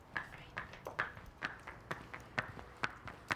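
Horse hooves clip-clopping as a constipated horse is led at a walk and a light jog: many sharp, evenly spaced hoof strikes in a steady rhythm, faint and alone.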